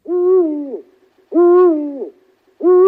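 Owls hoot among spruce trees at night during an owl-watching outing. Three drawn-out, hollow hoots come about a second apart, and the last is cut off at the end.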